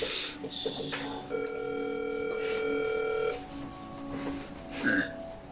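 A telephone call ringing out unanswered: a long steady electronic tone holds through the middle, with shorter tones and faint background sounds before and after it.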